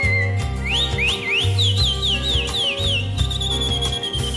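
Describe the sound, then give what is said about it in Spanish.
A calandria mockingbird whistles its song in quick, bright phrases that swoop up and down in pitch, then settles into a sustained high note, heard over a steady, pulsing low beat. “Canta el cardenal. Silba la calandria.”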